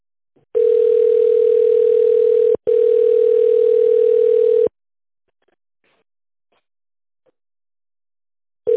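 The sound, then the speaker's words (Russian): Telephone ringback tone on a call to a company line, waiting to connect to a secretary: two long, steady mid-pitched tones of about two seconds each with a brief gap between them, then near silence, and another tone starting at the end. “Наберите внутренний номер абонента в тоновом режиме или дождитесь соединения с секретарем.”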